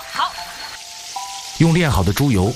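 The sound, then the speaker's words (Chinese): Sizzling of pork knuckles and trotters frying in rendered lard, a steady hiss at first, then a voice talks loudly over the cooking noise. “用炼好的猪油煎炸猪蹄膀和猪蹄。”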